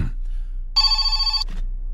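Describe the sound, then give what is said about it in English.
A phone rings with a single electronic ring burst: a steady, bright, buzzing tone that lasts under a second and then stops, with nothing else around it. “Oh, I forgot to turn my phone off.”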